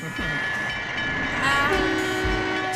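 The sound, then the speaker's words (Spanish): A passing train gives off a continuous, loud rumbling roar with a grinding metallic edge, growing slightly louder partway through and holding steady to the end, while a sustained tonal note rises out of the noise in the latter half. “Ahí viene el tren.”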